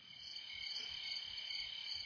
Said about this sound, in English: there's my response. Crickets.